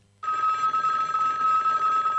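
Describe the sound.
A telephone bell rings after a brief silence, a continuous bright trilling ring that holds steady and alone until the end.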